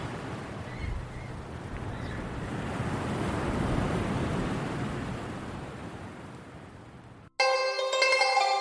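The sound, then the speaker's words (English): Enormous ocean waves roll in a continuous broad wash of surf that swells to a peak midway and then eases, before cutting off abruptly as music starts. “Enormous waves were still rolling around him.”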